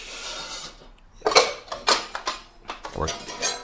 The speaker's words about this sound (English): I think I'm going to use your wok to make this, because it's your biggest pan, right?